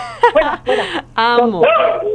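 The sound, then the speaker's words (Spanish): Three miniature schnauzers giving a few loud, high yips and whining barks in quick bursts, with brief gaps between them and pitch sliding within each call. “Son tres mini schnauzer y se ponen celosos.”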